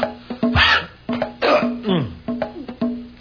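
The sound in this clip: Harsh coughing from something caught in the throat, a loud series of hacking coughs and throaty gulps in uneven bursts with short pauses between them.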